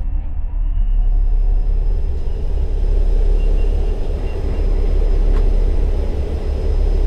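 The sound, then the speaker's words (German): Spaceship engines fire up as a loud, continuous low rumble, a heavy roaring drone that holds steady for the whole stretch with no voices. “Wir aktivieren Triebwerke.”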